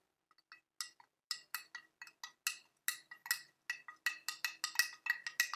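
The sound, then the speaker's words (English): A spoon stirs hojicha and oat milk in a glass, clinking against the sides in many quick, bright taps. The irregular rhythm grows denser toward the end, and the clinks stay fairly faint with no voices. “You see the hojicha and the milk have not perfectly combined yet. So let's go ahead and stir this up.”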